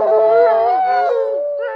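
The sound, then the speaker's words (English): A dog howls in one long, loud note that wavers and bends slowly in pitch, then starts a brief new rise at the very end, with no voices. “So if a dog howls, it basically says, I want you to come to me.”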